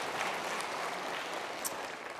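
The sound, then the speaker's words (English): A church audience applauds during a sermon, making a continuous, even wash of clapping at moderate loudness that stays steady throughout. “During these last, yes, you can clap for that.”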